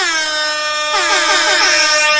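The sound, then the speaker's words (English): A loud air horn blares in one long, continuous blast, a bright, brassy, buzzing tone with no talk over it. “That's why the air horn's up and going. Yeah, we're just excited. The return of the air horn.”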